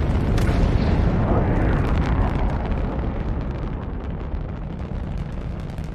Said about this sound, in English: The rocket launches into the sky in a billow of smoke.